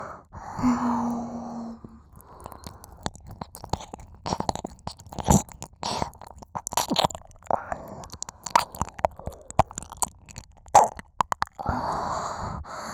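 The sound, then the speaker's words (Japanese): Wet, sticky squelching from lotion mixed with saliva in the ear, ASMR style. Many soft clicks and smacks are scattered irregularly throughout, and breathy sighs come at the start and end. “ローションと唾液が混じり合ってぐちぐちに音を立ててるでしょう。”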